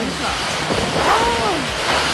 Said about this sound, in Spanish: Parece que se hubiera caído el cielo, pero nada que llueve. Solo viento, candela, candela, candela.